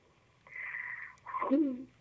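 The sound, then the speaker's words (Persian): A woman draws a deep breath: two faint, wheezy airy phases, the second lower-pitched and somewhat louder than the first. “خب یه نفس عمیق بکشین خانم.”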